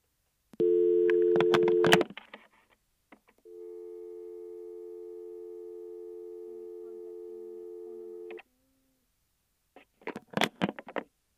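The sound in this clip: Telephone dial tone as a call is placed: a steady electronic tone, then a short gap with faint clicks, then a longer unbroken tone lasting about five seconds, followed by scattered clicks and handling noise.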